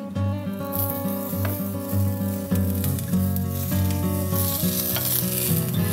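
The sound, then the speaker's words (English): Bacon sizzles in a frying pan, fatty thin-cut and lean thick-cut strips side by side, giving a loud, steady, crackling hiss with scattered pops throughout. “Now, so we've got a really fatty bacon from that skinny piece, and we've got a really meaty, lean bacon from our thicker cut. Let's fry these up.”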